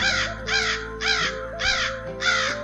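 Crows caw five times in harsh, evenly spaced calls over a low, steady hum.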